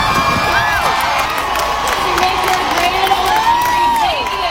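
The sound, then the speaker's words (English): An audience at a country music stage show cheers loudly and without pause, a dense wash of shouts, whoops and high whistles sustained throughout. “there were cheers in the audience for probably 6 minutes solid of everyone cheering”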